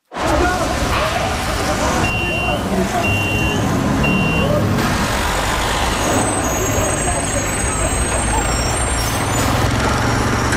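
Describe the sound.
Busy city street traffic in the greater Montreal area, with a truck's engine rumbling throughout and hissing air brakes. Three short high reversing beeps sound in a row early on, and a thin high squeal joins later.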